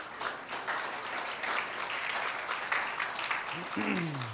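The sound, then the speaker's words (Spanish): Applause from a church audience: faint, steady clapping throughout, with a voice starting to talk near the end. “Un aplauso para Esteban.”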